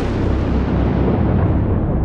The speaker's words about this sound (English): A sudden bolt of lightning struck the roof and filled the room with a bright flash.